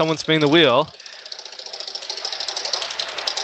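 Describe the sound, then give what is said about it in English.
A prize wheel spins with a rapid, rattling run of clicks that keeps an even, fast rhythm. A short burst of voice comes just before the ticking starts. “Oh, someone's spinning the wheel.”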